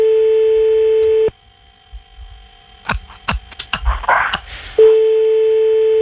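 Telephone ringing on an outgoing call: a steady tone holds for over a second, cuts out for a few seconds of quiet with scattered clicks and soft knocks, then the same tone returns.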